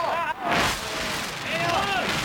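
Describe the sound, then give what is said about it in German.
Gunfire in a science-fiction radio drama shootout as rebels open fire: a couple of broad, noisy blasts mixed with shouting voices. “Sie landeten und eröffneten das Feuer auf Ishimatsu.”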